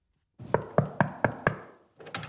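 Knocking on a door, the door of a city president's office: five firm, evenly spaced knuckle raps, then a short pause and a couple more knocks, clear with no talk.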